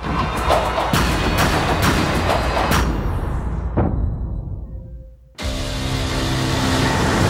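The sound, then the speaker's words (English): Black Panther movie trailer audio plays: loud rumbling engine sounds and heavy crashing impacts, then fading to near silence before a sudden loud burst of sound returns and holds. “Oh, I thought you were going to play the trailer first. I'm stalling for time. Black Panther. All right, here we go.”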